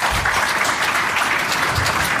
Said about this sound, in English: Big round of applause.